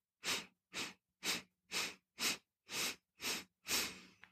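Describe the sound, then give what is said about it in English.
Eight short, sharp sniffing breaths drawn in through the nose as a breathing exercise, evenly spaced and steady in loudness, with the last stroke slightly longer; a tiny click follows. “So you'll breathe in for eight strokes like this.”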